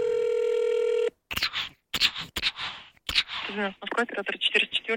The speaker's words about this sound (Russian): Нет времени звонить в полицию. Экстренный вызов.